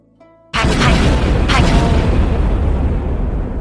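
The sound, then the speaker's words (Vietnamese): A fiery blast erupts with a sudden loud boom that swells into a long, heavy roaring rumble, with a second burst flaring shortly after the first. “Hỏa viêm nổ tung, hư không rung chuyển”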